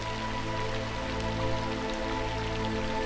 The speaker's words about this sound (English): allowing their raindrops to cover every surface.